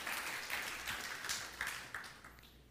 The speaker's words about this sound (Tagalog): Katulad ng katabi mo, palakpakan po natin si Lord right now.